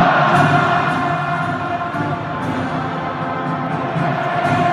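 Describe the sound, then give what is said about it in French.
Stadium crowd at the Stade de France singing the French national anthem, La Marseillaise, before a match: a dense, loud, continuous wash of massed voices that holds steady throughout. “Voilà, l'hymne national, hein, c'est toujours un grand moment de communion entre les joueurs et le public. Le public qui a chanté à tue-tête cette chanson.”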